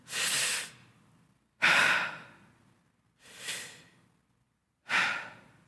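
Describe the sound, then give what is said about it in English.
Sudden gasps for air and breathing as silence breaks in a tomb. Four loud, rushing breaths come at a steady pace, each starting sharply and then fading off, with quiet gaps between and no voices. “there had to have been this moment where the silence is broken, and it had to have been broken by a sudden gasp for air.”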